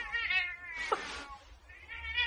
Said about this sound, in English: This is the damn cat. Still here.